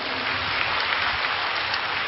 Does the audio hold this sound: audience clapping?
yes